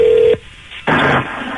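Telephone tone opening a radio prank-call game show: a steady, clear electronic tone sounds for about a third of a second, cuts off into near silence, then gives way to a loud, hissy burst of line noise.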